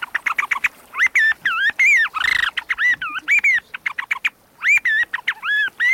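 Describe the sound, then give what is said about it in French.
A wooden bird call imitates a blackbird with many quick, squawky chirps in uneven bursts, broken midway by a harsher, rasping flutter. No voices are heard. “On a plusieurs modèles pour faire le merle, et celui-ci en bois, là.”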